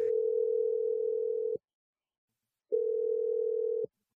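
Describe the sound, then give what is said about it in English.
A telephone tone sounds as a call is placed: a steady, pure, mid-pitched hum lasting about a second and a half, a pause of silence, then a second identical stretch of tone. “Yeah, here we go. Dialing it right now.”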